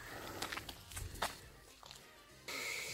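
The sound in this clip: Footsteps of someone walking while filming a camera comparison between an iPhone X and a Samsung S8: a few soft, uneven steps, followed near the end by a louder, steady hiss.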